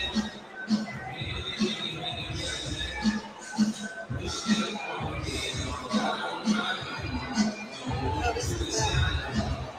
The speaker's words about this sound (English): Have to make this place for the people eating. Yeah, right. Big crowd of people eating back there.